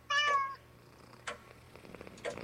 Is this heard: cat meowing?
yes